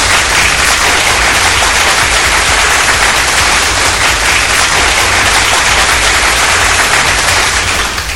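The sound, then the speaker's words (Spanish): Loud, dense applause from a crowd, a steady wash of clapping that holds at full strength for about eight seconds before easing slightly at the end, with no voices over it. “Eso, por supuesto, se merece un súper, súper aplauso.”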